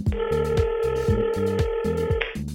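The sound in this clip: Telephone ringing to bring on the next caller: a steady, loud electronic ring tone with a pulsing low warble underneath, sounding alone and ending abruptly.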